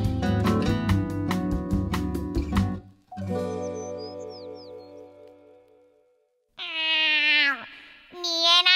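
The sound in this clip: A voice imitating a cat's meow gives a high, nasal, harmonic mewing call just after a short burst of music.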